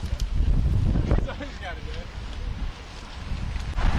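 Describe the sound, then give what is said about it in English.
Wind roars over the microphone on a local group bicycle training ride, the Donut Run, making a steady, heavy rumble with people talking underneath. “We're with Bike Sport Radio right now. listening to live sounds of a local training ride, the Donut Run.”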